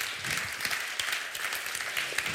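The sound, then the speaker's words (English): A church audience clapping for three men proposed as elders, a moderate, continuous patter of many hands with small irregular peaks and no voices above it. “And the reason a number of you clapped there was because you love these guys and you've seen them and you know them.”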